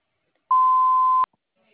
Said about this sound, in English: Please leave one detailed message after the tone with the best phone contact number, and I will return your phone call within 24 to 48 hours.